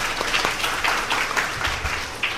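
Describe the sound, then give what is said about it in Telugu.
Audience applause at a Hare Krishna gathering as listeners clap for themselves at the end of a talk. The clapping is steady and moderate, with a few sharper individual claps standing out from the even wash. “You're all such a good listeners, clap for you all.”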